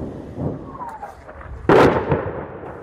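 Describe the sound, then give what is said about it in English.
One sudden, loud explosion from a rocket landing in a city street in Ukraine cuts through low background noise, with a rumbling tail trailing off after the blast. “For the people in this town, it means afternoons with the noise of rockets landing in the streets.”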